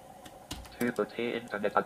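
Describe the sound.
Keys clatter on a computer keyboard as a web address is typed into a feed reader, with a few scattered clicks followed by a quick run of key presses.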